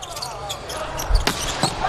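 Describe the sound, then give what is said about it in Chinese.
At a volleyball match with the Chinese team, a float serve is struck with a sharp slap of the ball, followed by a couple of further brief impacts, over steady arena crowd noise and voices. “中国队 王鹤斌的发球飘球”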